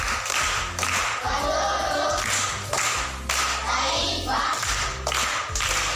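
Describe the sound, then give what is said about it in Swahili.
Primary schoolchildren clap for a correct riddle answer. The rhythmic group clapping comes in bursts separated by short pauses, mixed with low thumps. “Amepata, amekosa? Amepata. Makofi kwa shangazi yake.”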